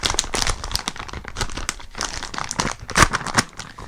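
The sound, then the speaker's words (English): Crinkling and ripping of a white cheddar and black peppercorn popcorn bag being torn open: continuous loud, crackly rustling with sharper crunchy bursts toward the end, and no voices over it. “Let's get to the popcorn here. Forget all this sharing crap. How do we open this up here? Just rip it. How do we open it?”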